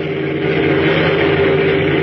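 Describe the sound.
A car engine on a road at night as the car comes around a curve: a continuous, loud, rushing drone that holds steady throughout, with no voices.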